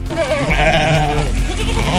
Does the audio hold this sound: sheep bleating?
yes